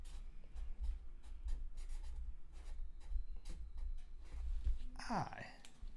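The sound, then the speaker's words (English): Pen pressed hard on paper: many quick, scratchy strokes in an uneven rhythm, soft but steady, with faint voices underneath and a brief squeak near the end. “I can hear you writing real hard over there.”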